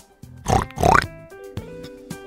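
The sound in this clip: Pig grunting from a pig offered in trade for an old dry cow: two loud, nasal oinks close together, then a couple of fainter, shorter grunts over a low, steady background.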